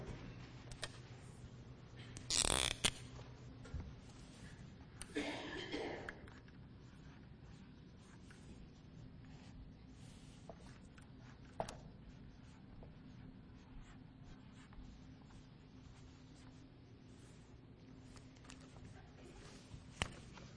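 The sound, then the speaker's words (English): Writing on a board: two short, scratchy strokes stand out early, followed by faint, scattered ticks and taps over a quiet background. “this morning, I'd like to uh, write a few words on the board here.”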